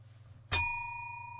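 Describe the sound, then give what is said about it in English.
A bell strikes once with a bright ding, its clear metallic tone ringing on and slowly decaying over a faint low hum. “I thought of that bell just to sort of cover up that.”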